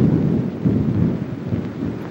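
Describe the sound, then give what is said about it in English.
Driving rain pours down during a thunderstorm, a dense, steady roar weighted toward the low end, with thunder rumbling in slow swells beneath it and no voices. “he peers out into the driving rain. Lightning flashes.”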